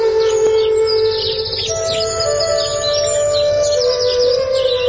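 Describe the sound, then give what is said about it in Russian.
Birdsong on a clear morning: many quick, high chirps and trills overlap continuously, with a steady tonal hum underneath throughout. “Ясное небо, утренняя свежесть, роса, ветерок и пение птичек наполняли сердце Лизы младенческой веселостью.”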